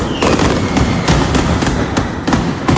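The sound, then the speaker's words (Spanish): Mascletà firecrackers explode at the Hogueras festival in Alicante, a loud, dense and unbroken volley of rapid cracks and bangs. “Estamos de fiesta en Alicante. Primera mascleta de fogueres que se ha inundado de pólvora la Plaza de los Luceros. 75 kilos se han disparado y se han utilizado más de 6.000 truenos aéreos.”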